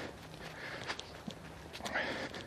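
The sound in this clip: Footsteps of someone walking outdoors on a cold, overcast day make a few soft, irregular steps over a steady background hiss.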